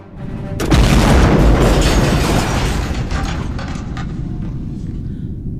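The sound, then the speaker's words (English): A deep explosion boom in a Star Wars space battle with blaster fire. It hits suddenly and fades into a long, loud, broad rumble that gradually settles. “Blow them out of the sky, Commander. Yes, Lord Vader. Sergeant, keep firing. Aim to destroy.”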